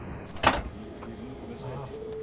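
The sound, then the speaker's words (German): A single vehicle door shutting with a sharp, solid thud early on, followed by a quiet, steady hum. “Dann einmal die Tür schließen.”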